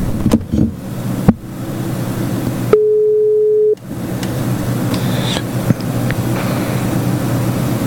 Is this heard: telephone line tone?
yes